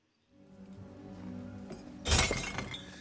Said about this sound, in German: Niklas beim, äh, er wirft eine Flasche in den Flaschencontainer